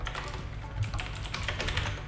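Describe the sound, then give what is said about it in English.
Typing on a mechanical keyboard with blue switches: a quiet, steady stream of many rapid clicky keystrokes with no pauses and no voices. “Gotta have the mechanical keyboard.”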